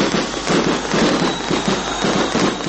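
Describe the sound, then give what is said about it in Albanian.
Fireworks set off in Kosovo to celebrate a homecoming: a dense, continuous rush of crackling and popping from many small bursts that fills the whole stretch at an even, fairly loud level, with no voices. “Përnder të kthimit të tij në Kosovë janë ndezur fishek zjarre”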